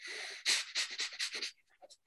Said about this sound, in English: So breath of fire, in through the nose and out through the nose.